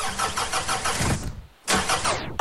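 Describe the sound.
A car engine struggles to start, cranking in rapid rhythmic chugging for over a second without catching. After a short silence comes a second cranking burst that cuts off abruptly.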